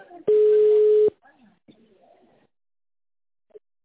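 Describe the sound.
Telephone line tone during a call transfer: a single loud, steady mid-pitched beep lasting under a second, followed by faint voice-like murmuring and a brief soft blip.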